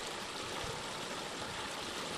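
Steady rushing of water pouring from a pipe that drains an abandoned coal mine, out of a roadside mountainside in Itmann, Wyoming County; an even, continuous hiss with no breaks and no voices.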